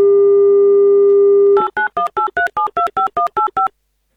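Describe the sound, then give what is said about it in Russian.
A telephone dial tone hums steadily, then gives way to a quick, even run of about eleven touch-tone beeps as a number is dialed, with no voices. “Давайте звонить Ульяне.”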